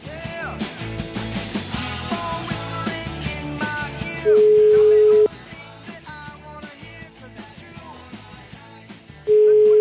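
A telephone ringing tone sounds while a call is placed: two long, steady, level beeps, the second cut off at the end, cutting through loud, busy background music.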